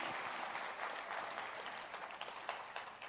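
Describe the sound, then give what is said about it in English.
A church audience clapping their hands during a service, heard as a faint, continuous patter of many hands with a slightly uneven, muffled texture. “Clap your hands for yourself.”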